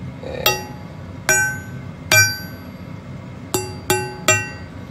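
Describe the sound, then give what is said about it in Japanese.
A Seki Magoroku Damascus kitchen knife slices eggplant diagonally, giving six crisp, ringing taps: three evenly spaced, then a pause, then three in quicker succession. “関孫六のダマスカス、もうずっとこれですね、私は。ナスを切ってます。”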